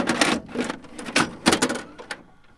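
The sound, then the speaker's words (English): Mechanical clunks and whirring as a VHS tape is pushed into a video machine, arriving in several short, bright bursts of clatter over a couple of seconds. “It's a VHS tape going into a machine.”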